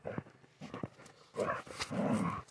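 A small dog vocalises softly, with a few short yips followed by two longer, drawn-out growling whines.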